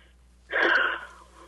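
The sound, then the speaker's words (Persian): A person takes a single deep breath, one loud breathy rush of air that swells and then fades, heard alone against quiet. “ببخشید، بذار من یه نفس. بله، نفس بکشیم.”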